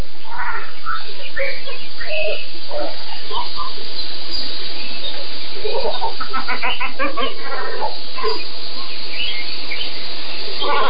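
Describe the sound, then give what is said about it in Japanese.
Great cormorants, a flock of about fifty, call at night from dead standing trees in a lake where they roost, giving many harsh, guttural croaks that overlap in loud, irregular bursts. “暗い中に黒い鳥がいるため鳴くまで気がつきませんでした。カワウの数は50羽ほど。湖の中の立ち枯れた木に止まってねぐらをとっていました。”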